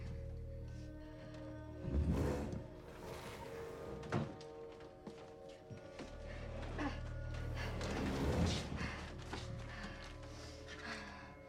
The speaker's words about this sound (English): She pushes the heavy chest of drawers away from the door.